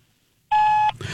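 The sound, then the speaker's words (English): A voicemail beep cuts through near silence as one steady, high-pitched tone lasting under half a second, then gives way to faint rustling. “She gonna roll us in a voicemail?”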